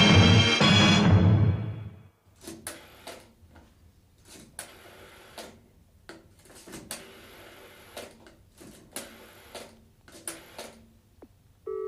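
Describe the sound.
A telephone being dialed: many small sharp clicks in short groups at uneven intervals, fairly faint, following a louder sustained sound at the start.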